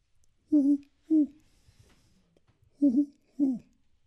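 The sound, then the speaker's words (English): A human voice imitates a flammulated owl with four low, soft hoots in two evenly spaced pairs, with quiet gaps between them. “"Ooh-hoo-hoo." That's flammulated owl for "get out of my house."”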